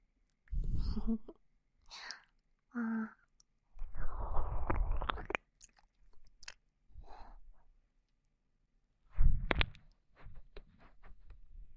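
ASMR ear-eating mouth sounds: close, wet chewing and breathy whispering arrive in many short bursts separated by silences, soft overall with a few louder moist smacks.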